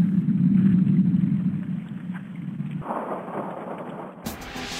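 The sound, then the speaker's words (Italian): Seismic recording of the Japanese earthquake's effect on California's San Andreas fault, heard as a deep, continuous rumbling roar that thins out midway and ends in a sudden burst of brighter hiss. “Ascoltate per esempio quale effetto il terremoto giapponese ha proiettato in California, 6.000 km di distanza, dove la faglia di Sant'Andrea si mise in moto per propagazione del sisma.”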